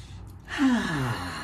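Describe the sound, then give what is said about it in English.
A deep breath drawn during a guided meditation: a sudden breathy rush after a short quiet lead-in, with a faint voiced edge, heard alone without talk. “So you can open your eyes, take another deep breath,”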